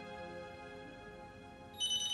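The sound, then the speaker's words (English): A telephone rings with a steady electronic ringtone of layered, sustained tones. A brighter, louder burst of ringing enters near the end. “The blonde woman in Jimmy's photo answers the phone.”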